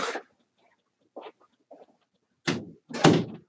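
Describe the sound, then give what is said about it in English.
A door being closed: a few soft shuffles and knocks, then two firmer, louder thuds near the end, with quiet gaps and no talk. “I'm going to close the door.”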